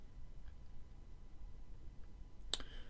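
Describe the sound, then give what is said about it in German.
A single computer mouse click on a Save Recording button: one sharp, brief tick near the end, rising from a faint background hum. “Einfach hier auf den Button Save Recording drücken und dann wird das Ganze gespeichert.”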